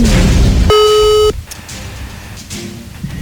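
A single steady electronic telephone tone, about half a second long, as a call is placed on a phone line. Faint line hiss follows.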